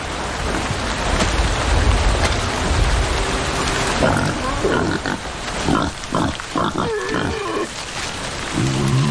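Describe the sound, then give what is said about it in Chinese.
Wild boars squabbling over food in mud during heavy rain: rough grunts, snorts and short squeals come in a scuffling burst over a constant hiss of falling rain, loud and close to the rain wash. “野猪有时会为争夺食物发生争执。”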